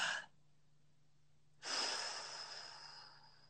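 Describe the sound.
Deep, controlled breathing from a person entering cold water: a short breath, a pause, then a long, steady exhale that slowly fades over about two seconds, quiet and airy.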